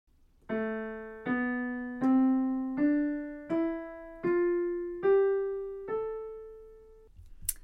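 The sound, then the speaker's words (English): Eight notes climb steadily in an Aeolian-mode natural minor scale. Each rings and fades before the next, in an even rhythm with no speech, and a short click follows at the end. “While Aeolian mode sounds like this.”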